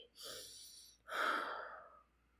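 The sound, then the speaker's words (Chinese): Two faint, deep breaths are taken to calm down: a breath drawn in, then a longer, heavier breath let out, with no talk around them. “深呼吸，深呼吸。”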